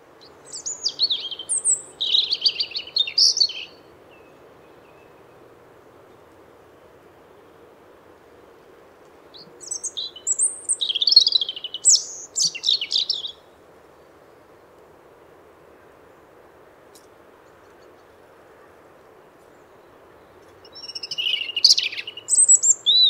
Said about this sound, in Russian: Зарянка.